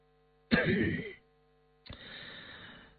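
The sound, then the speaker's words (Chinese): A light cough from a pale, sickly-looking man: two short throaty bursts, the first sharper and stronger, the second softer and more drawn out, with near-silence around them. “马齐看上去真的是有病，脸色苍白，越显得又高又瘦，轻咳了一声”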